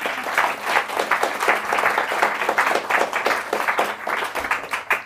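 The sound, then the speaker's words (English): Warm audience applause welcoming a discussion panel at a book event marking the centenary of Leonora Carrington, dense and steady throughout with no voices over it. “Please join me in a very warm welcome for our panel.”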